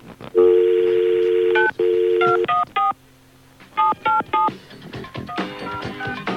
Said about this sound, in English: I dialed the wrong number. Yeah. It was one digit off.